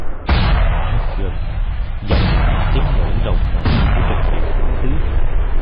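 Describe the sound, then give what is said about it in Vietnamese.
Artillery shells exploding on the far side of a mountain range: three heavy, loud booms spaced a couple of seconds apart, each followed by a long rumbling tail. “Lát sau, tiếng đạn pháo nổ thạch dây phía bên kia dãy núi.”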